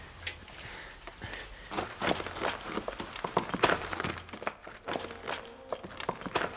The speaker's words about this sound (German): Ich gehe in die Höhle. Warte, ich komme mit.